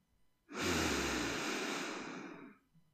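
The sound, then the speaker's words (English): A slow inhale of cold air through the nose during a sunrise meditation, one steady breathy rush of about two seconds, heard alone and easing off at the end. “You breathe in the air. It's cold in your nose.”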